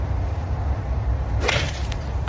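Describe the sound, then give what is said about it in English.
A golf club plays a chip shot: a quick whooshing swing, then a sharp crack of contact near the end, heard over a steady background hiss. “Let's have a chip shot.”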